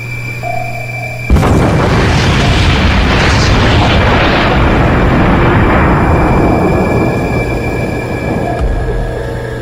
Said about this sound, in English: Torpedo 1 has target acquired. So does torpedo 2. They're both locked, sir. Target within 2,000 feet, sir. Brace for impact.